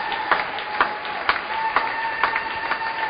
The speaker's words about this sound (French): Acclamons le nom de l'horloger.